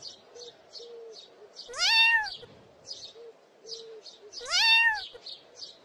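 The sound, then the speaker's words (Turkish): A kitten stuck up on a tree branch gives two loud, rising meows, separated by a pause, while small birds chirp in quick repeated bursts throughout. “Hemen yanlarındaki uzun ağaca bakınca yavru bir kedinin dalın üzerinde miyavladığını gördüler.”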